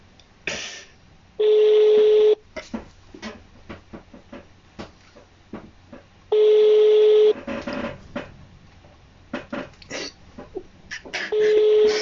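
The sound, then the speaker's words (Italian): Phone call placed to someone at home during quarantine: three long, steady ringback tones of about a second each, spaced several seconds apart, with many short clicks and taps between them. “Ok, chiamiamo il primo adesso.”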